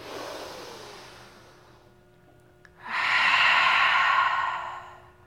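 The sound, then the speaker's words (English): Yoga breathing: a soft, fading breath out, then a brief pause, then a deep, loud, breathy intake lasting about two seconds that tapers off at the end. “Another one like that, deep breath in.”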